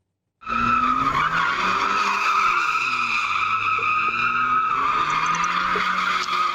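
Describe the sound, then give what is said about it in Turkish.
Tires squealing as cars drift on city streets: a loud, continuous high-pitched screech starts abruptly and holds for several seconds, wavering slightly, over a low engine drone. “ve Trabzon'da drift atarak ilerleyen sürücüler polisten kaçamadı ve 4 sürücü yakalandı”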